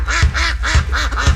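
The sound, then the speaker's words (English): Waterfowl such as geese and grebes call at a bird refuge in Box Elder County, Utah, in spring: a quick run of about five nasal, honking calls in a steady rhythm, loud and clear with no talk. “Can you hear it? That's the sound of nature waking up in Box Elder County. Spring has sprung, and the first visitors are already here. From grebes to geese, Bear River Bird Refuge”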